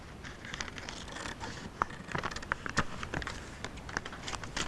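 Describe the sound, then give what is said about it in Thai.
Scissors cut folded fabric along a seam line, giving a few faint, crisp snips against a soft background rustle. “ตัดนะคะตรงแนวเย็บเนี่ยก่อนที่เราจะตัดเราต้องพับนะคะให้แนวเย็บมาตรงกันก่อนนะคะเราถึงจะตัดได้นะคะ”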